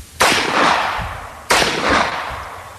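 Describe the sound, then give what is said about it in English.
Two loud single gunshots fired at a man-shaped target in Florida. Each is a sharp crack with a long, slowly fading tail, and the shots fall a little over a second apart. “let's have a listen to you, because we did have some audio of you shooting too.”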